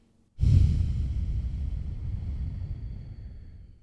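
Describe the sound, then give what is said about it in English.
A slow exhale during a guided breathing exercise: one long, steady, airy rush of breath that starts abruptly and tapers off gently over several seconds. “And inhale again. Hold for five. Exhale for five.”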